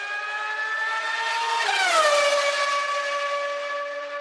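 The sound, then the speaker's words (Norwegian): A race car engine roars in a show jingle, a high, buzzing whine with layered harmonics. Its pitch drops sharply partway through as if the car passes by, then it holds steady at a lower pitch. Loud and continuous, with no talking. “Kjør, kjør jingle. Kjør jingle.”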